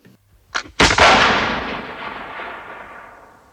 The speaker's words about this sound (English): But Albert put the butt of the rifle to his waist, pointing it at the woman's abdomen, and pulled the trigger.